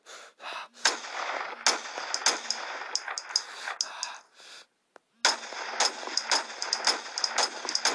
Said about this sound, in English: They're shooting at us!